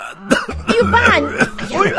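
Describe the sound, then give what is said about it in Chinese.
A man coughs and clears his throat in a few rough, voiced bursts, loud and close, with a gruff, grumbling quality. “师傅都被我感动的咳嗽了。”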